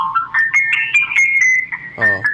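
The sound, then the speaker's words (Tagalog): A phone ringtone signals an incoming call waiting: a bright, melodic electronic tone that rises through a short phrase and holds. A brief voice cuts in near the end. “Dari lang, tawagan sa liwat. May call waiting.”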